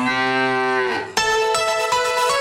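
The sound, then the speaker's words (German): A loud, drawn-out cow moo comes from a mooing Müllermilch milk bottle. Its pitch drops near the end, and a bright, tone-rich burst starts abruptly after it. “So klingt es, wenn du 50.000 Euro gewinnst. Letzte Chance. Finde die letzte muhende Müllermilchflasche”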